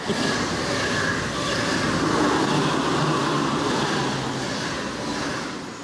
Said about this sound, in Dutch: ja, naar de treinen, inderdaad, klopt. Komt er een aan? Er komen er twee aan zelfs. Oké, nou, gaan we even kijken. Komt er eentje.